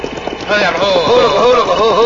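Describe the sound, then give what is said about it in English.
Horses' hooves clip-clop as riders head into a cave in heavy rain, a steady rhythmic run of clopping that grows louder after the first half second, with people talking over it. “Let's leave the horses here”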